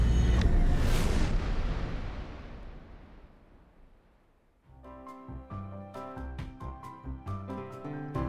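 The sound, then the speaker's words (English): A sonic boom effect: a loud, broad, rumbling blast that slowly fades over several seconds before music starts up. “Grab onto something now, because we are going to zoom at the speed of light. Make sure to cover your ears at the sonic boom.”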